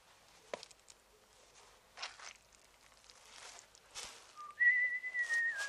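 Carefree whistling from a person striding briskly across concrete blocks. Soft scattered footsteps and rustling come first, then a short low whistled note and a steady, sustained higher tone that carries to the end.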